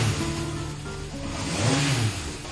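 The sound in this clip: Engine of an old 1969 car running and revving, a steady mid-pitched drone whose pitch climbs and dips around the middle before settling back, heard without talk.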